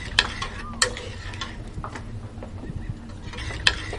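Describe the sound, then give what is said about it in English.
Spoon stirring chocolate and water together in a pot: soft scraping and swishing with a few sharp clinks against the pot's side, over a low, steady bubbling hum. “the goal is to have the chocolate and the water fully integrated into one solution, so it would be easier for the process if you just stirred it a little bit”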